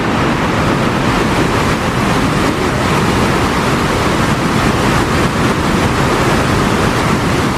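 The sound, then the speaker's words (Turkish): A waterfall roars with river flow at four times its normal level, about six million litres of water per second, at the Garganta del Diablo falls between Brazil and Argentina. The rush of water is loud, dense and unbroken throughout. “nehir seviyesinin yükselmesiyle şelalelerde su akışı normalin 4 katına çıktı. Saniyede yaklaşık 6 milyon litre suyun aktığı şelaleler ziyaretçilere etkileyici manzaralar sundu.”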